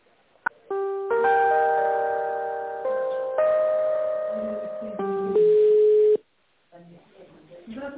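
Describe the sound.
Telephone line tones while a call is being transferred: sustained synthetic chime-like notes that step between pitches, ending in one steady tone that cuts off abruptly, with a thin, band-limited phone-line quality.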